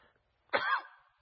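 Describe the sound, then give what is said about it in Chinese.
A single cough from a person: one short, husky burst of moderate loudness that fades quickly, heard alone without any talk. “对不起，我那个咳嗽。”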